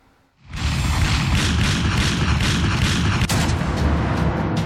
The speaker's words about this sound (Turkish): Düğünde tabanca ve uzun namlulu silahlarla havaya ateş açtılar.